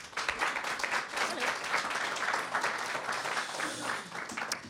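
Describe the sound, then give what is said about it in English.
An audience at a live show in Berlin claps to welcome a guest. The applause is fairly loud, dense and continuous, with a rippling texture that holds steady throughout. “Would you please put your hands together for Diana Arapovic?”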